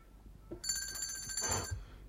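A bell rings in a continuous bright metallic trill for about a second, rung to call for help and loud against a quiet background, with no voices.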